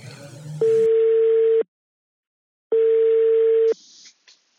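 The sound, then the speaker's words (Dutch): Telephone ringback tone as an outgoing call connects: two long, steady, mid-pitched tones about a second each, separated by a silent gap, with brief noise before the first and after the second. “Zullen we hem eens even bellen, want hij heeft af en toe een, internet internettip. Ja. Oké, nou we gaan nu even bellen.”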